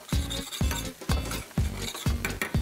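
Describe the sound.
Porcini mushrooms and meatballs frying in a pan, with a steady rhythm of stirring strokes scraping through the food over a soft, continuous sizzle.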